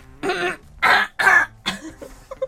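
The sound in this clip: A person clears the throat in a few rough, voiced bursts, the middle ones loudest. Softer, shorter throaty sounds trail off at the end.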